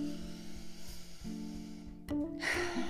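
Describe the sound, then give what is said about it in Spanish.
A deep inhale, a brief breathy rush of air near the end, rising over steady soft background music. “Inhala profundo, hazlo ahorita. Inhala profundo.”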